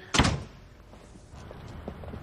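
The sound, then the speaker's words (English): A garage door gives one dull, heavy thunk near the start. Quiet follows, broken only by a few faint, scattered small knocks. “He opens the door and looks away as she leaves the garage.”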